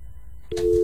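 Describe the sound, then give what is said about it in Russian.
Telephone tone while calling someone: a click, then a single steady mid-pitched tone that begins halfway through and holds to the end. “Сейчас пока наша главная дачница дозванивается до человека. Звони другому человеку.”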